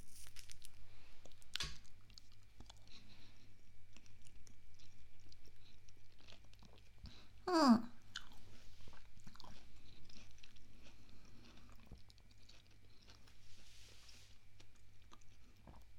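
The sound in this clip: Someone chewing while tasting something sweet: faint, sparse bites and soft crunching throughout, with one louder crunch about halfway through.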